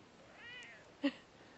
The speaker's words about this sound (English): And I have a kitty cat.